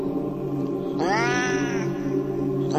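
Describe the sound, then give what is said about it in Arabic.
A frightened cat shut inside a bag lets out one drawn-out, harmonic-rich yowl that bends upward at its start and lasts under a second. The start of another yowl follows at the very end, over a steady low hum. “في الأول بدأت تصرخ صرخات القطط العادية، لكن بعد كده الصرخات اتحولت وبدأت الشنطة طالع منها صوت، صوت القطط اللي يخوف اللي أنا ما بحبوش.”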